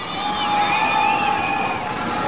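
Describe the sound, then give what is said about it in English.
A crowd in Lebanon cheers Iranian President Mahmoud Ahmadinejad on his arrival, a steady roar of many voices with long, sustained shouts carrying above the din. “Cheering crowds greeted Iranian President Mahmoud Ahmadinejad when he touched down today in Lebanon.”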